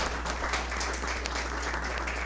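Audience applause at a gaúcho tradition ceremony honoring a young prenda mirim: steady, dense clapping, fairly faint and even throughout, over a low constant hum.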